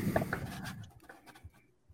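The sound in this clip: A pen writes on paper in quick, faint scratching strokes that thin out toward the end, with no one speaking.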